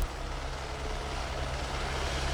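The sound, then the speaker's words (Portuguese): Steady whirring hum of a camera drone flying over the Monaco race track during a motor race, a continuous loud buzz with low tonal lines that holds level throughout, with no talking. “Olha o drone aí que eu falei.”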